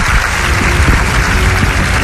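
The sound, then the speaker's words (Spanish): Audience applause welcoming a guest onto a talk show: a dense, steady wash of many clapping hands at an even, fairly loud level throughout, with no talk over it. “Jonathan Puru, a quien pido que le des un fortísimo aplauso”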